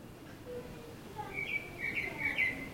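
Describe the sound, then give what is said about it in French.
A common blackbird singing, recorded through a bathroom window: soft, fluting whistled phrases rise out of a steady hiss, a few faint notes at first, then brighter warbling that grows slightly stronger toward the end. “Là, ce que vous entendez, c'est le merle que j'ai enregistré par la fenêtre de ma salle de bain.”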